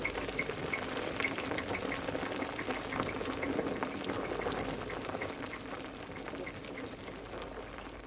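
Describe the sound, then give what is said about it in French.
Wine ferments in wooden barrels with a dense, continuous fizzing and bubbling full of tiny pops. The sound is steady throughout and eases slightly toward the end. “le vin qui bouillait dans les tonneaux.”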